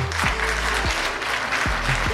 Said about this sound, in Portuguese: Salva de palmas para José Uber